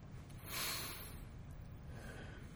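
A single deep breath drawn in, a brief, strong airy rush that swells early and then fades into near silence.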